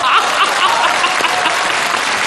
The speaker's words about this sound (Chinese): 桃花潭水深千尺，不及大家送掌声啊！